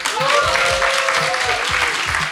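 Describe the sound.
Festival audience applauding, a dense, continuous patter of many hands clapping at an even loudness, with voices mixed in beneath.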